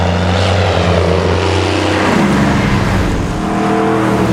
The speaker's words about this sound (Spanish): Yo creo que es un avión.